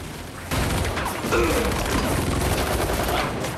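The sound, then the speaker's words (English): Automatic rifle and machine gun fire from armor-plated attackers in a battle: a dense, continuous clatter of rapid shots that starts abruptly and stays loud and steady throughout. “Automatic rifles! Who in God's name has automatic rifles?”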